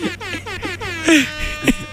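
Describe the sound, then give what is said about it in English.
An air horn blast from a phone app: a rapid run of short, buzzy horn pulses, each sliding downward in pitch, with a louder, brighter blast in the middle and a shorter one near the end. “I didn't actually know the air horn went off. I have an air horn app.”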